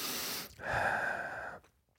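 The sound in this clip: A breath drawn by a man in the middle of speaking: one long, airy rush of breath lasting about a second, soft and noisy, with no talk over it.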